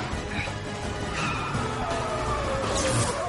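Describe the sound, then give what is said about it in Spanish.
Engine roar and grinding metal as an SUV rams a taxi against a wall during a car chase in a 2004 spy thriller film, a loud continuous wash of noise with brief harsh scraping bursts. “El sicario apunta a Born. El y choca con la pared. El todo terreno empuja al taxi contra la pared.”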